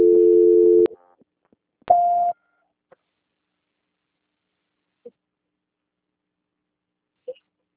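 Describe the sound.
Telephone call transfer tones: a low steady beep lasting almost a second, then a shorter, higher beep, followed by a few faint clicks across otherwise quiet line silence.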